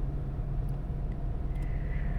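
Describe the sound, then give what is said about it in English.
Steady low engine and road rumble inside a moving car, a continuous droning hum with no talk heard over it. “See, we like riding in the car,”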